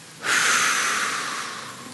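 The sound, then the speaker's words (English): One deep exhale after a held breath during a guided breathing exercise, a breathy rush of air that starts abruptly and fades slowly over more than a second, with no talk. “Deep breath in. Just take a deep breath in. Hold it. Exhale.”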